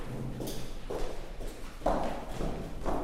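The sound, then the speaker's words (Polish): Footsteps walking down from an upper floor to the ground-floor dressing rooms, heard as a few irregular, fairly soft thumps and taps over a low background hum. “Idziemy dosyć daleko, bo jesteśmy na piętrze, a garderoby są niżej na parterze.”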